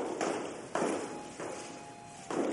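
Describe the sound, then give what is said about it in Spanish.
A woman's footsteps going down stairs, four soft, muffled thuds with uneven gaps between them, quiet and alone. “La señora baja unas escaleras.”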